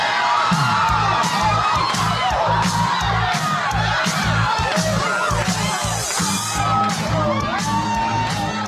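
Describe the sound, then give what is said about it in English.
Celebration sound effect of a large crowd cheering, whooping and yelling, loud and dense for the full length with no break. “All right, guys, that sound means it's time for the celebrations of the show.”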